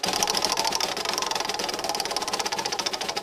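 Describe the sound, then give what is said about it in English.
A prize wheel spins with a rapid, steady clatter of ticking clicks that runs without a break, each tick short and bright, with no voices. “Ooh, and I can add in a spinny wheel sound effect too.”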